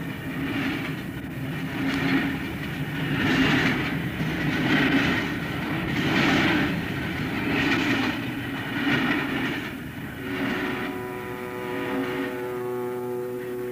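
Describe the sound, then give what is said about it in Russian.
A train rushes through a station without stopping, giving a loud, steady rumble with rhythmic clattering wheels that swells and eases over the pass. “Москва следует по первому пути без остановки. Внимание, поезд следует без остановки.”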